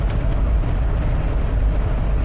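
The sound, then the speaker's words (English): A Jeep cruising down a highway gives off a loud, steady, low roar of engine and road noise that holds unbroken for a couple of seconds, with no talking. “Look at me. I'm driving down a highway, talking to myself in my Jeep.”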